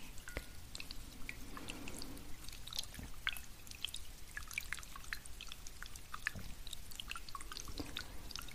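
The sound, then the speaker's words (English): Orbeez water beads squished with a silicone utensil give off many small wet pops and crackles, scattered irregularly over a soft, steady hiss, faint throughout and without voices. “This way we can concentrate more on the sound that the Orbeez.”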